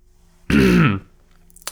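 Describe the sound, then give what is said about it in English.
A single short, rough throat clear with a voiced, grunting edge, loud and alone, followed by quiet. “There we go again, and let's see. No more throat clears.”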